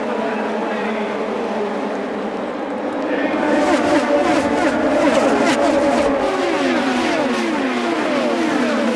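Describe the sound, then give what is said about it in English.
Race car engines roar at the 101st running of the Indianapolis 500, a dense layered drone with many overlapping pitch sweeps as cars pass, growing louder partway through and staying loud to the end. “The 101st running of the Indianapolis 500-mile race.”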